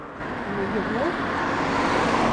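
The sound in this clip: Cars pass on a road with a broad, steady whoosh of tire and engine noise that swells slightly as it goes.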